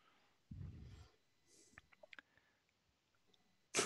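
Ten six-sided dice rolled during a tabletop game, a soft low rattle followed by a quick cluster of faint, sharp clicks as they tumble and settle, all quiet.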